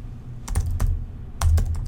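Typing on a computer keyboard while entering C# code: a few crisp keystroke clicks in two short bursts over a low steady hum.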